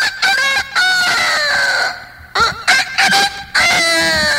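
A rooster crows loudly, giving a few drawn-out crows in quick succession with a wavering pitch.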